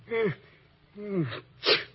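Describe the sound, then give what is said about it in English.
A man sneezes: two drawn-out voiced 'ah' sounds falling in pitch build up, then a short, sharp, loud burst finishes it. “you sneezed.”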